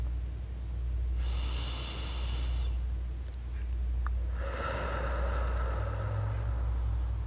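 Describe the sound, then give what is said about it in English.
Someone takes a deep breath: a slow, airy inhale of about a second and a half, a brief pause, then a longer hissing exhale, all over a steady low rumble. “I want y'all to take a deep breath with me so we can come back to the present moment.”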